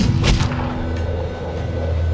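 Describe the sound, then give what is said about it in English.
A single pistol shot, fired by a mounted soldier from a rearing, startled horse, bursts out as one sharp, loud crack near the start, then trails into a low, steady rumble. “nearly throwing its rider, who fired his pistol. the shot caught her in the forehead.”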